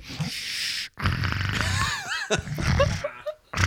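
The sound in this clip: A voice imitates congested, snorting breathing through a blocked nose, made by someone hiding under a desk. Several rough, wheezy snorts and grunting breaths come in uneven bursts separated by brief pauses.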